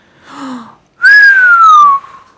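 A person whistles in disbelief: a short breathy sound, then one loud, clear whistle that starts high and glides slowly downward for about a second.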